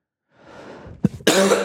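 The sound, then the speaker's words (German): A cough, heard alone: a breathy rasp builds, then a short, sharp catch, followed by a loud, harsh, drawn-out burst. “Und ich werde diesmal auch wieder Husten schneiden müssen.”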